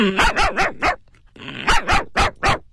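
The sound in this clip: A human voice imitates a dog barking, giving a quick series of short, loud barks in two bursts separated by a brief pause.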